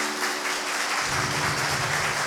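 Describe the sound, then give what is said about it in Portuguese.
A church audience applauds a birthday during Mass, giving a continuous, even roar of many clapping hands from start to finish, with a faint low hum underneath. “Vamos aplaudir o aniversariante.”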